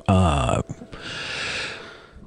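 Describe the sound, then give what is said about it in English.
A single human sneeze: a short voiced catch of breath, then a long, loud, breathy burst of noise that trails off on its own. “Sorry, I just had to sneeze.”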